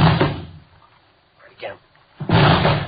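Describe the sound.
Police officers force a door open: heavy crashing blows land at the start and again near the end, with a quieter scraping sound in between.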